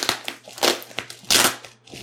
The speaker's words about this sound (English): Maybe I can just pull this tape off here, actually.